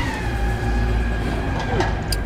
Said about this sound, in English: Yes, it was a garbbage truck. Mystery solved.